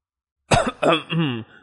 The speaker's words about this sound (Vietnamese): Huyết Bào Nhân nghe vậy thì ho nhẹ một tiếng, có chút xấu hổ nói.